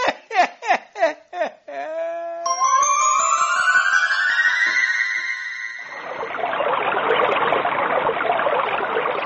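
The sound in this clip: A staged sea-water sound effect gives a broad, rushing wash of water noise in the closing seconds. Before it come a run of short voiced bursts and then a long, sustained tone that rises in pitch.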